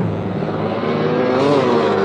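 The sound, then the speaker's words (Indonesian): Engine roar of a motorcycle approaching from the right, a loud, continuous drone that swells slightly and edges up in pitch toward the end, with no voices. “Awas dek, ada motor.”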